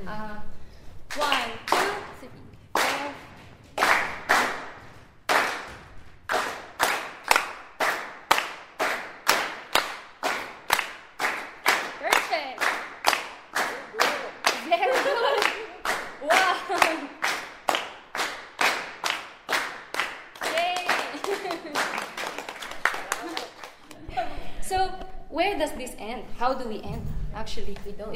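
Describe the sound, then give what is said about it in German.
Group hand clapping in a session exploring indigenous Philippine music: many crisp claps in a steady, continuous repeating rhythm that ends in a louder, more mixed burst of noise. “Just clap.”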